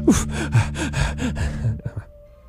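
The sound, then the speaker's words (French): Out-of-breath panting: a quick, even run of breathy gasps that fades out after about two seconds, with low sustained tones beneath. “Oh, je suis déjà essoufflé.”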